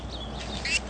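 A tiny, nearly featherless baby bird chick gives two short, high, thin peeps, the second louder and brighter, over a low steady background murmur.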